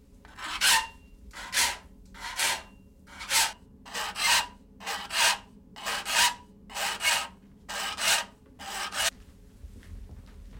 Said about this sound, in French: Ça, c'est un tire-point. C'est ce qui va nous servir à affûter les dents. N'oublie pas qu'il ne doit jamais revenir en arrière. Écoute.